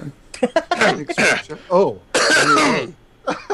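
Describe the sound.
Someone clears their throat repeatedly with harsh, raspy coughs and gravelly vocal grunts, ending in one long rough rasp.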